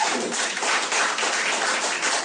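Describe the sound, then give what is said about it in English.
Scattered clapping from a small part of a comedy club audience, light and fairly continuous with no big swell of applause. “Any other Arabs? Clap if you're from the Middle East.”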